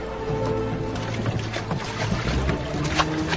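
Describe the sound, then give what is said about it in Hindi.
A boat is pulled forward through water, a steady, continuous rushing and churning with a low rumble and a hint of wind noise throughout. “नाव को आगे खींचो, चलो खींचो, जल्दी करो जल्दी करो।”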